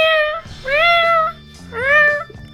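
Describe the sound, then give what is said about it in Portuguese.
A person imitates a cat meowing: three drawn-out, whiny mews with a slightly rising pitch, separated by brief pauses and heard alone without talk. “Outra coisa que eu gostava de fazer é deixar de miar quando vejo gatos.”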